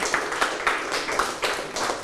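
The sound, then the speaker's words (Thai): Students in a classroom applaud a classmate for a correct answer, with many overlapping hand claps forming a bright, steady patter that swells in short surges. “ปรบมือให้เพื่อนถูกต้องเลยครับ”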